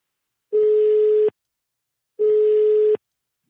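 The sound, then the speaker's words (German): Tones of an outgoing telephone call, two identical steady single-pitch beeps of under a second each, separated by silence and heard alone. “Marcel Yildiz, den habe ich mal angerufen”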